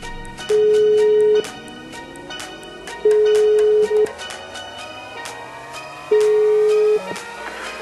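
Ringback tone of an outgoing telephone call, a steady mid-pitched tone sounding three times, each about a second long with gaps of roughly two seconds, over a busy background of fainter tones.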